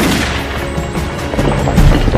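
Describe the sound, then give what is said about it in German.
Gunshots ring out during a dramatized chase, several cracks buried in a dense, continuous rumbling din that keeps up throughout. “Bleib sofort stehen! Ich schieße!”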